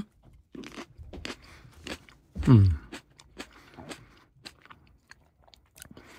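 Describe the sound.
A Moroccan variety is bitten into and chewed while being tasted: one loud, crisp bite comes after a few faint clicks, then many soft, irregular chewing crunches follow, with no talk.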